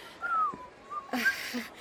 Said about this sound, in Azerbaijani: xahiş edirəm bu qədər fit çalma